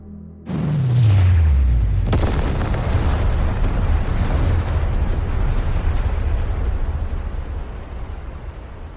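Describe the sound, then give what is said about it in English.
Thermonuclear warheads detonating in a huge explosion: a sudden loud blast opens with a deep boom that sweeps downward in pitch, a second sharp crack follows, then a long roaring rumble slowly fades away. “A simple one, directed to all the machines carrying thermonuclear warheads. Detonate.”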